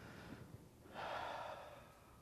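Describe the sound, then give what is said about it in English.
A deep breath taken in during a sermon: a faint, airy intake that swells after a quiet start and then gently eases away, with no talk. “Take a deep breath. Go.”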